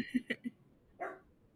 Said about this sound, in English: Apologies if you hear my dog barking in the background. I'm also dog sitting for my sister's pug.